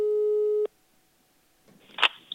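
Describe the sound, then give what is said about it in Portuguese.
A steady, loud telephone tone sounds while a number is being dialed, then stops abruptly, followed by a pause and a short burst of clicking noise near the end. “eu vou ligar para Kéfera agora para perguntar o que, que ela está fazendo. Peraí.”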